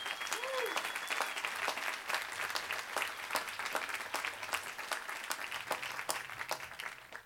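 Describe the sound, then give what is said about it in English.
Applause for orientation volunteers at a university move-in welcome, a dense, even clatter of many hands clapping that holds steady throughout and stays fairly soft in level. “join us in giving a warm round of applause for more than 400 orientation volunteers”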